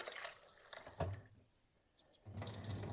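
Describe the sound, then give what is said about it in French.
Running tap water as strawberries and blueberries are rinsed, with faint splashing that fades to a near-quiet lull midway, then resumes with a fuller gush. “Je rince mes fruits, excepté les framboises. Les framboises ne vont pas supporter l'eau.”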